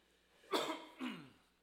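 A person coughs and clears their throat in two short, rough bursts, the second slightly softer, quiet overall against a still background.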